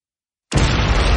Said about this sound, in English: Some fireworks, huh? You feel that?